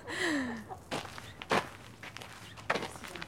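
Footsteps of someone walking around outdoors near a chicken coop, a few soft, irregular scuffing steps at a relaxed pace, fairly quiet against low background noise.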